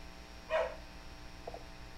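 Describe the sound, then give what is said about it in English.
A dog that wants to be let out gives a short, mid-pitched bark-like call, followed by a fainter second sound. “It's my dog wanting to come out.”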